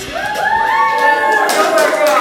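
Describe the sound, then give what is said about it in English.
Studio audience clapping and cheering in a radio recording studio: a steady, loud wash of crowd noise with rising whoops and voices running through the whole stretch. “There you go. There's our studio audience. The first time, first time in the Classroom Radio recording studio.”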